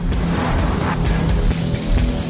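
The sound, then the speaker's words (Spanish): Two black cars driving up to a house, a steady, fairly loud low engine rumble with broad road and tire noise running throughout. “Dos vehículos negros se dirigen a la casa.”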